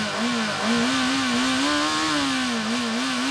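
An engine revs continuously, a loud buzzing drone that holds steady throughout while its pitch wavers slightly up and down, with no talk over it.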